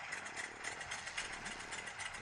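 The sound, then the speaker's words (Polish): A propeller airplane engine sputters into life in an adventure video game, giving a dense, rattling, buzzing drone that stays fairly even for its short length. “Śmigło się kręci, świetnie. Okej. Okay. Odpala jakby trochę.”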